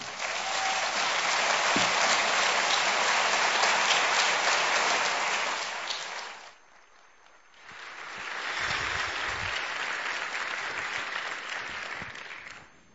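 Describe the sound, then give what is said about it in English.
A church audience applauds to welcome the speaker KP Yohannan. The loud, sustained clapping fades after about six seconds, pauses briefly, then swells again and carries on to the end. “Would you please welcome KP Yohannan?”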